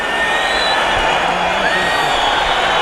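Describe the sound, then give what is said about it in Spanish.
An angry bullfight crowd protesting in the arena, a loud, continuous roar of massed voices with thin whistle-like tones threading through it and a voice talking over the din. “El público está muy, muy enfadado. Pero muy enfadado.”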